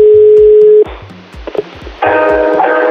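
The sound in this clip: Telephone tones on an outgoing call: a steady pure tone cuts off, a quieter stretch with a few blips follows, and then a louder buzzy ringing tone comes in.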